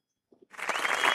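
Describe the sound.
Applause at a fundraising raffle swells up quickly after near silence and a couple of faint taps, then becomes a brief, steady spatter of clapping.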